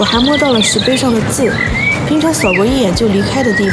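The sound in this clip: Small birds chirp at a busy scenic spot, with high, faint tweets scattered under a person talking steadily throughout.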